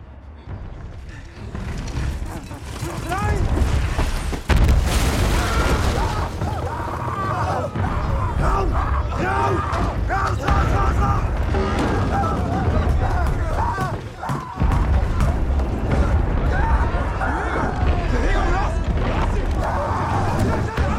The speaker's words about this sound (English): Paul, and his soldiers taking shelter in a trench from a creeping barrage